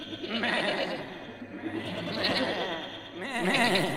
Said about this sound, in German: Ich muss die Ziegen aus dem Stall lassen, sonst verhungern sie.